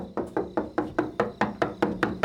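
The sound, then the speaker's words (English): A man knocks on a kitchen door in a long, steady series of firm, evenly spaced raps of equal loudness, with no voices. “Another man's knocking on the kitchen door.”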